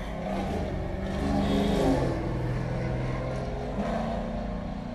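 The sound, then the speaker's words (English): Car engines drone past in a continuous low rumble, the noise swelling slightly near the middle and then holding fairly steady, with no voices over it. “gosh, these cars.”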